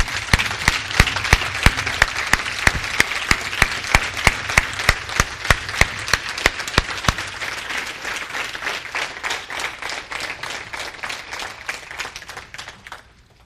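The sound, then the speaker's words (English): An audience gives a long round of applause, many hands clapping densely and steadily at first. The clapping gradually thins and softens toward the end. “Would you guys give her a round of applause?”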